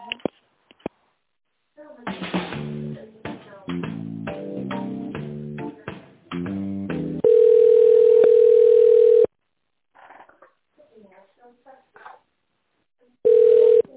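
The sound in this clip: A telephone ringback tone sounds while a call connects: two long, steady, mid-pitched tones, the second cut short. Before them comes a stretch of electronic, melody-like tones and short bursts.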